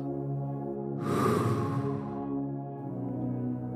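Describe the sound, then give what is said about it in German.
A single deep breath makes a soft, breathy rush that swells and then eases away over a steady, low tonal drone. “Atme tief ein und aus.”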